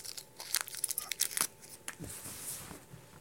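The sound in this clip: Crinkling and tearing as an object is unwrapped during an interview, with a flurry of sharp crackles and rips in the first half, then a quieter, looser rustling.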